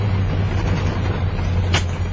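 A road vehicle's engine drones low and steady throughout, with a short burst of hiss near the end.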